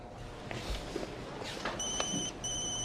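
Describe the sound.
A telephone rings with a high, steady electronic tone that starts partway through and pauses briefly before resuming, sitting under a bed of rough background noise.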